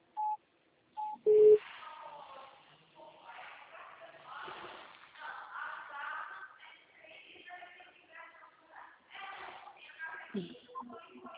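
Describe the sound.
Telephone keypad tones sound while a call is being dialed: a few short beeps, then a voice talking over a quieter line.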